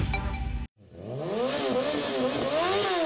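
Motorcycle engine revving: after a brief gap, a loud buzzing engine note swings up and down in pitch several times over about two seconds.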